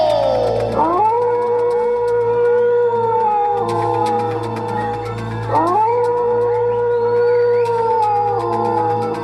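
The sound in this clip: Wolf howls in a pack setting: two long, loud howls, each opening with a quick upward sweep before settling into a held, wavering tone, over a steady low drone.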